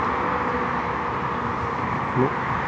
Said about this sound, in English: although you hear a lot of background, the traffic's getting more and more, but it's Saturday morning